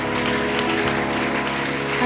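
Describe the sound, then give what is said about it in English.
An audience claps together in an auditorium during a church service, a dense, steady wash of applause that holds even loudness throughout, with sustained musical tones running underneath. “One more time, why don't you give that hand clap to Jesus all over this auditorium?”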